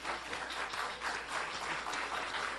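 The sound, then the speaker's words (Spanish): Applause at an anniversary celebration, a steady, dense wash of clapping that stays fairly quiet and even throughout, with no talk. “Sí, sí, merece un aplauso, claro.”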